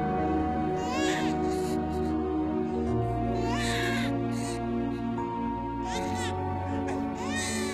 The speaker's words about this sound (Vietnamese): đêm nó khóc dạ đề suốt cả đêm, vừa mới tĩnh đưa được một lúc, đến gần sáng nó lại choe choé khóc